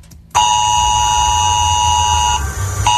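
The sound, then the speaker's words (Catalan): A mobile phone civil protection emergency alert tone in Catalonia: a loud, harsh, steady buzzing tone holds for about two seconds, drops briefly, then sounds again. “Abans que arribi l'estiu, tots els telèfons mòbils que hi ha a Catalunya faran sonar un avís com aquest.”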